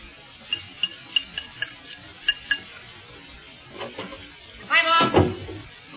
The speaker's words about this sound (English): Are you cooking something special? Stew, honey.